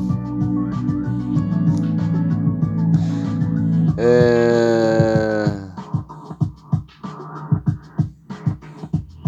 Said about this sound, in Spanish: Está todo el rebaño.